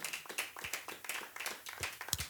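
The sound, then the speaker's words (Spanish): A church audience claps their hands during a Spanish-language worship service, producing faint, quick, rhythmic clapping made of many overlapping hand claps. “Aleluya, dele palmas al Señor.”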